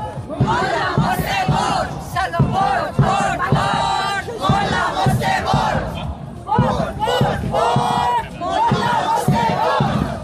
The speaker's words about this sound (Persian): معترضان در راهپیمایی حدود یک ساعت در خیابان‌های مرکزی مالمو حرکت کردند و با شعارهایی علیه قطعی اینترنت، اعدام و سرکوب حکومتی تلاش کردند صدای مردم ایران را به افکار عمومی سوئد برسانند.